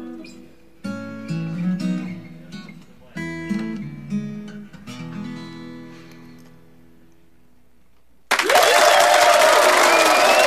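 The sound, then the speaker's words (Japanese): An audience bursts into loud cheering and applause as a sung song ends. Several phrases of melodic music fade out before a sudden, dense roar of clapping and shouting crowd voices fills the final two seconds. “歓声が入りましたよ。”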